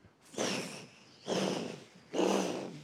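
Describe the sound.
A voice imitates an angry bull snorting through its nostrils: three forceful, breathy nasal blasts, evenly spaced and heard alone.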